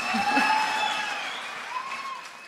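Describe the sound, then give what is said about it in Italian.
Audience applause at a stage event, a soft scattered patter of clapping that fades gradually over a couple of seconds, with some faint voices mixed in. “Un applauso ancora.”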